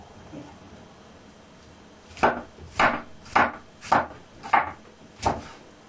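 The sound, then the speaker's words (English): Knife chopping mushrooms finely on a cutting board: six distinct, evenly spaced thuds after a couple of seconds of near quiet, each a short woody knock. “In the similar way, you chop your mushroom finely, as fine as you can.”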